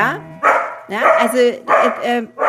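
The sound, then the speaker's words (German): A dog barks in the background as people talk: a few short yapping barks mixed in beneath the steady conversation. “da bellt der Hund im Hintergrund”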